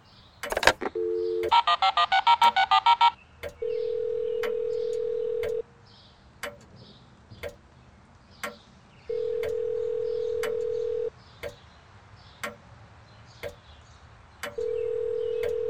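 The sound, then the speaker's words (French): A telephone call to a cellphone that goes unanswered: a quick run of keypad dialing tones, then a ring tone repeating three times in two-second bursts separated by long silent gaps, with faint regular ticking throughout. “Je peux toujours essayer le cellulaire du copain annonceur.”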